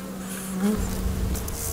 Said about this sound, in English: Back by Guillaume Argeret's hives, where in a neighbouring field, some of the bees are busy gathering pollen and nectar from the wild flowers